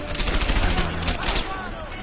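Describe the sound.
Gunfire from a rifle in a shooting video game comes in a dense, continuous volley of many rapid, sharp shots. It stays loud throughout.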